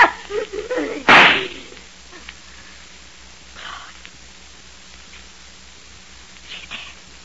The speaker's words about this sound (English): But in just 2 seconds, I'm going to shoot you right through the heart.